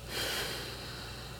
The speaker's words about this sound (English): Now switch, close that right hand into a soft fist, open your left, and breathe out.